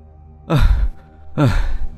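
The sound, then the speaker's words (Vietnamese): Heavy panting after a fast bike ride: two loud, breathy gasps, evenly spaced, each a rough rush of air with a throaty edge, alone without talk. “Nè, làm gì thở ghê vậy mày?”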